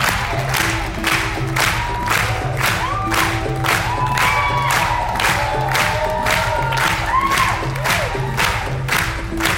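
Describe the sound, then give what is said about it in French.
A festival audience claps in steady rhythm to cheer on a voguing dancer after a screening of the film Port Authority. Many even, loud claps come with scattered whoops and shouts from the crowd. “Là, on clappe en rythme pour soutenir le danseur de Port Authority”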